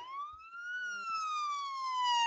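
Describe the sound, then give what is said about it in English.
A siren played as a warning sound effect: one loud, sustained wailing tone that climbs slowly in pitch, then gently falls and holds steady to the end. “So, play the siren, careful.”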